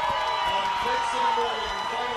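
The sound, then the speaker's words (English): A football crowd cheers as a Thanksgiving Day game between the Staples Wreckers and Greenwich Cardinals ends, a broad swell of crowd noise under an announcer's talk. “the crowd comes back to life as they know it's finally over and they can go home”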